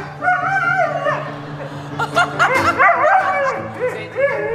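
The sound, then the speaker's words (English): A dog vocalizing in a string of yips, whines and short barks that shift up and down in pitch, moderately loud, with a brief pause before a final whine. “listen to this again. That is a dog.”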